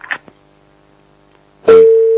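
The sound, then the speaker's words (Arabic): A telephone line tone for an incoming call on a call-in show sounds as one steady, mid-pitched beep held for about half a second, preceded by a few faint clicks. “معنا اتصال آخر. نعم،”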